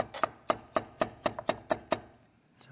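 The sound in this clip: Knife chopping food to even lengths during cooking: a steady series of sharp, evenly spaced cuts, about eight in a row, with no talking.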